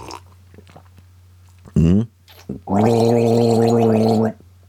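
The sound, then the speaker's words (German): Someone gargles almond milk, first with a short bubbling burst and then with a longer, loud, voiced gargle that holds a steady, rattling tone for over a second. “Man kann auch damit gurgeln.”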